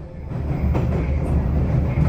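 A metro train running below ground gives a low, continuous rumble with a faint rattling layer on top, steady for the whole moment.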